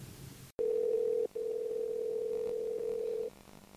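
Telephone dial tone as a call is placed: a sharp click, then a steady, loud single-pitched tone with one brief break, cutting off abruptly near the end.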